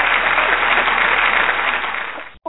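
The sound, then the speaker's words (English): Hand-clapping applause from a group, dense and loud for about two seconds before tapering and cutting off, with a brief faint sound after it. “She said, hand clap for that one.”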